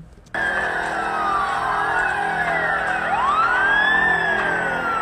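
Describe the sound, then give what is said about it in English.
Emergency vehicle sirens wail continuously and loudly after a brief quiet start, with several overlapping tones sweeping up and down in pitch and no voices. “Just sirens in the background. There's nothing going on. Just, yeah, sirens in the background.”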